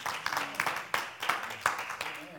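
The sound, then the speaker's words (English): A church audience clapping their hands for a worship leader: claps land together in a steady, even rhythm over a couple of seconds, with voices mixed in. “Clap your hands for him. Give honor where honor is due.”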